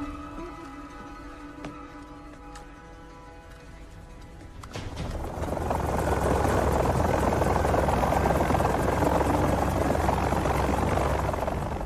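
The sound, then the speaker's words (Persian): A helicopter comes in to land: a steady turbine whine with hum-like tones, then partway through a loud, broad rotor roar swells up and holds at full strength to the end. “از سانشاین به تیم کرکس، من تو موقعیت خروجم، تا 30 ثانیه دیگه فرود میام، عجله کنید.”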